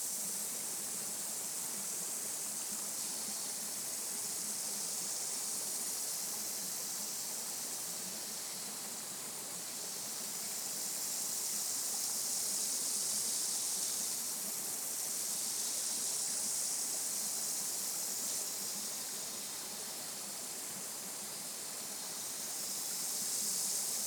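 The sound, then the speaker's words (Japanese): Water conjured by a spell rushes and splashes over a face: a steady, hissing flow that swells gently and eases back several times over a long, unbroken stretch. “顔に水が当たるわよ。シルアレイン、アクアメンドゥ、水よ。”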